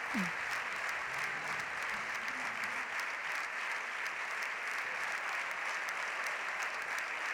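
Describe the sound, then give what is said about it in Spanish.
Sustained applause from a parliamentary group's benches and government seats: steady, dense clapping that continues unbroken at a moderate, even level for over seven seconds, with no speech on top. “Son los aplausos de esa bancada socialista y del gobierno.”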